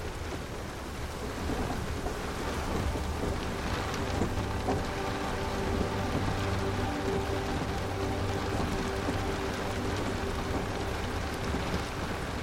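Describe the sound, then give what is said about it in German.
Steady rain patters on a train roof in a dense, continuous wash, with soft, low thunder rumbling in the distance beneath it. The sound stays even throughout, with no voices. “In der Ferne grollt sanfter Donner, während die Regentropfen auf das Zugdach prasseln.”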